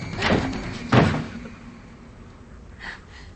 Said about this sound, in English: She opens the closet door.